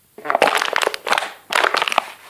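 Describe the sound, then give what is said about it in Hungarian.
Plastic bottles being crushed for recycling give off crackling, crinkling crunches in a few quick bursts with short pauses between them. “Sokan már így, szelektíven, összepréselve gyűjtik a műanyag üvegeket.”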